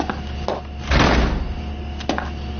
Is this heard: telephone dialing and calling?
no